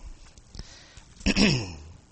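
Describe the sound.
Someone clears their throat during a sermon, a single loud rasping burst that trails off into a falling voiced tone after a few faint soft noises.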